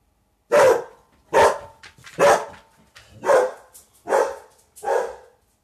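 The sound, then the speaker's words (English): A dog barks loudly six times in a steady, evenly spaced series of sharp, full barks, with no other sounds around them. “And that's my dog, by the way. He's going crazy, as he always does. And it's probably because other dogs are barking.”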